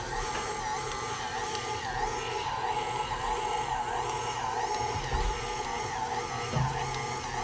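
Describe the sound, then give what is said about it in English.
An electric mixer kneading soft bread dough in a bowl gives a steady, unbroken motor whir with a gritty churning texture, loud and constant throughout. “So you can hear the mixer working. It's kneading that dough.”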